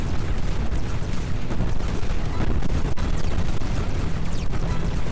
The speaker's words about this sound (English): I don't even know anymore which grenades are mine and which ones are the enemy's grenades.